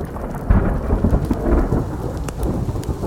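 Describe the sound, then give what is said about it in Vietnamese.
Thunder rumbles over heavy, steady rain, a loud, deep, continuous roar of downpour with low rolling booms and no voices. “Một tiếng sấm vang lên, cắt ngang dòng suy nghĩ của ông quản gia.”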